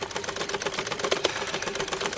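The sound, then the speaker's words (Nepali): A sewing machine, left unused for about three years, running in a home: a fast, even mechanical clatter of rapid repeated ticks, steady and fairly faint, with no voices. “यो घरमा धेरै पछि सिलाई मेसिनको आवाज सुन्ने त विमला।”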